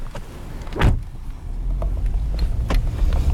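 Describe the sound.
A car drives off from a harbour parking lot, opening with a sharp thump before a low engine rumble builds and holds steady.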